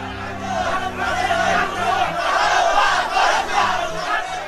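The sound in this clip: Crowd shouting in a dramatized Bible scene of Pilate and Barabbas: a loud, continuous roar of many voices yelling together, sustained without a break.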